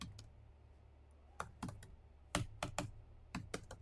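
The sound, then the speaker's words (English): Keys clatter on a computer keyboard as someone types, faint, sparse keystrokes landing in irregular little bursts with short pauses between, no voices over them. “You tell me, I'm going to type it inside the chat. Hold on, get ready for it.”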